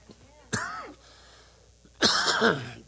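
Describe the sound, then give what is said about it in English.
Two harsh, voiced coughs from a preacher addressing a church, separated by a quiet pause. The second cough is longer and rougher than the first. “If this coughing don't get me first.”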